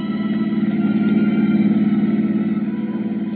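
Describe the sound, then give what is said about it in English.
A car driving: a steady low engine drone with a fast, even pulsing throb that holds at the same level throughout, with no talking. “So we drove back towards C.D.'s office.”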